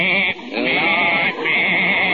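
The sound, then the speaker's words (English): A goat bleats in a courtroom, giving one long, loud, wavering nasal bleat that carries through the whole clip with two brief dips in level. “I got my goat here”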